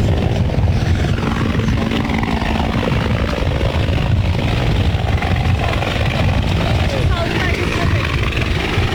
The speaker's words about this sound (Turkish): Sahil güvenlik helikopteri kazazedeleri denizden kurtarmak için şu anda tam kazazedelerin üzerinde.